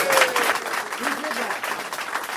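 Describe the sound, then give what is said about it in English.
Audience applause for the people who created something twenty years earlier: steady, dense clapping that holds at an even level throughout, with a few brief voices mixed in. “So let's have a round of applause for people who put this together 20 years ago and made it great.”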